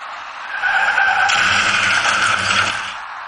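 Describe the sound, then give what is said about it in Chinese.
Tires skid and screech on a city intersection road late at night during a crash between two white passenger cars, one making a U-turn. A broad, harsh screech swells after half a second, holds steadily, then fades near the end. “在东四北大街与东四七条的交叉路口处，车辆在路面上继续行驶，就在这时一起两车相撞的事故出现了，您注意看。”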